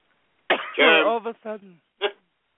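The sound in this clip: Throat clearing from a dry throat: a few rough, voiced rasping bursts and then one short final burst, fairly loud and heard alone.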